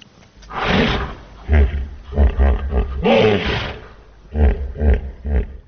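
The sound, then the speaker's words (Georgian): A 16-year-old hippopotamus vocalizes at a zoo, where it is sheltering in an open elephant enclosure after a flood. The calls come as a series of deep, rumbling, grunting bursts with short pauses between them, loud and irregular. “16 წლის ჰიპოპოტამი, რომელიც წყალდიდობის შემდეგ დროებით სპილოების ღია ვოლიერს აფარებს თავს”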